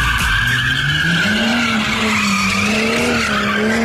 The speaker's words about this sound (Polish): Co to takiego? To próba driftowania. Kto driftował? Właściciel BMW musi sięgnąć głęboko do kieszeni.